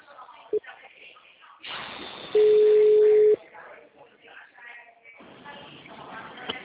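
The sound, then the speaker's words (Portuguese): Telephone line tones after a dropped call: a short beep, then a steady mid-pitched tone lasting about a second, with voices talking around them. “eu acho que caiu a ligação, foi isso? Caiu. Ficou mudo, ficou mudo.”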